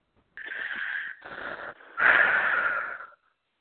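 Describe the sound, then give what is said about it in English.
A deep breath: airy, breathy rushes of air in three connected stretches, the last one the loudest and longest before it stops. No talking is heard. “Take a deep breath.”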